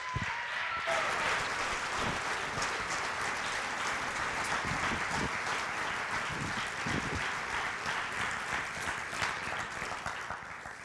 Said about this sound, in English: So would you guys do me a favor? It's not doing him a favor, though it would show him appreciation, if you guys would put your hands together and give a warm welcome for Justin.